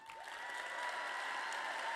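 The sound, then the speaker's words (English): Audience applause at a Portland event celebrating school performers before the winners are announced: dense, steady clapping that holds at an even, fairly loud level throughout. “A round of applause.”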